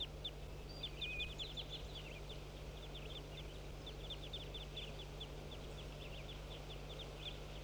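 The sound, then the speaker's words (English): A crossbill calls in flight with a flock, giving many short, high chirps in quick irregular bursts, faint over a steady low hum. “Here comes the crossbill in flight.”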